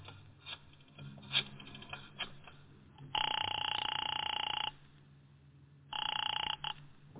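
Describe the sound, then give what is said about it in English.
Telephone ringing after a number is dialed: two long electronic ring bursts separated by a pause, preceded by faint handling clicks, with a narrow, band-limited tone. “I got out and found a telephone. I dialed the Kelsey residence.”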